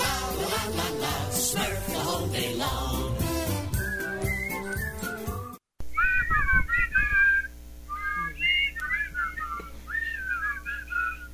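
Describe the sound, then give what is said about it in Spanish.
A cartoon theme intro is whistled as a bright melody in short, repeated phrases separated by pauses. It follows several seconds of fuller instrumental music and a brief silent break. “Qué lindo, los pajaritos silbando, Para los que no sabían, ese era el intro de los pitufos en inglés”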